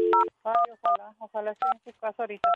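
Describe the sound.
Telephone keypad tones beep as a call is dialed, many short, loud electronic tones in quick succession separated by brief gaps.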